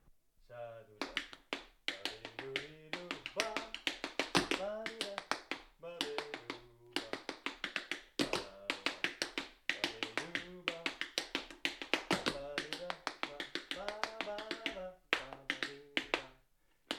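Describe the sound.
Tap dancing steps on a wooden floor rattle out as many sharp, crisp clicks in quick, shifting rhythms, with a voice sounding throughout alongside the taps.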